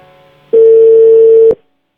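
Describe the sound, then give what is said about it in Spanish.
A telephone tone sounds while a number is dialed, a single steady, loud pure tone lasting about a second that ends with a sharp click, preceded by a faint low hum. “estamos intentándole marcar a Alexia”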